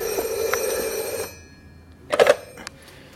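A telephone rings in a staged radio drama: one sustained, steady electronic ring of just over a second, then near quiet broken by a brief, sharp burst of sound.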